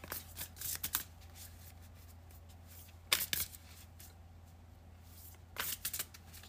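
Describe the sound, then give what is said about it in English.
Oracle moon cards being shuffled, heard as three quiet, brisk bursts of riffling separated by pauses. “Let's go ahead and pull you three moon cards.”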